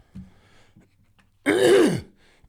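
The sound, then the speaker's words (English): A gruff throat clearing, heard as a single rasping, gravelly burst of about half a second, loud and alone after a brief faint sound. “let me clear my throat so that I can do the reverb correctly.”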